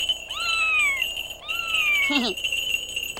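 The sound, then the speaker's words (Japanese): Two drawn-out meows from a cat in an animated scene, each sliding downward in pitch and followed by a brief wavering squeak. “お前、目隠ししてこの猫捕まえる。”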